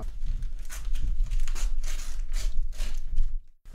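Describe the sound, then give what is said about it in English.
Paper crackles and snips as a newspaper article is cut into pieces with scissors, a run of sharp, dry bursts in an uneven rhythm with no talk. “Right, okay, hang on, I've got to cut out this in different bits. Yep, so you're cutting that.”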